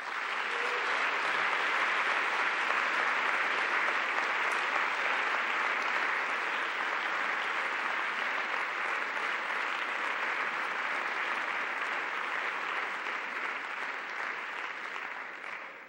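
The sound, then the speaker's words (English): Sustained audience applause welcomes a speaker to a chapel lecture, a dense, even wash of many hands clapping that holds steady for about fifteen seconds before tapering slightly at the end. “He'll be speaking on Bonhoeffer and our post-racial blues. Please join me in welcoming J. Kameron Carter.”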